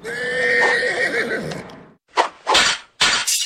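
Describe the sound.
A horse whinnies in a long, loud, wavering call. A few heavy thumping impacts follow after a short pause.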